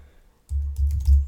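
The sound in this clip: Typing on a computer keyboard as a few letters go into a search box: a brief silence, then a quick, tight burst of keystrokes with soft, muffled clicks.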